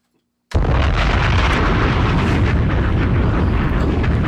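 A bomb explosion sound effect bursts in abruptly after a short silence, then holds as a loud, dense, sustained rumbling roar to the end.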